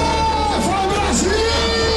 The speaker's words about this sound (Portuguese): E a empolgação era tanta que o bar parecia arquibancada. A torcida ficou animada com o primeiro tempo da seleção.